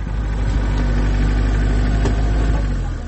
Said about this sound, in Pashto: زه همدا اوس په یو کومه ګیره لرونکي موټر کې د یادې لارې په اوږدو کې هغه سیمې ته ورځم